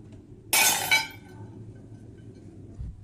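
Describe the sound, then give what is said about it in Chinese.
A single sharp crash as an unsatisfactory kiln-fired porcelain piece is smashed at a family porcelain workshop in Chenlu ancient town, bursting loudly with a bright, brittle ring and a brief clattering tail before fading into a low background hum. “每次窑炉烧出来肯定有不满意的作品，就摔到20多件”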